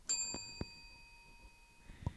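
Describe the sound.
A bell rings once partway through a recorded conversation in a school listening test: a bright chime whose high ringing tones hold and slowly fade over about two seconds, with a few soft knocks underneath.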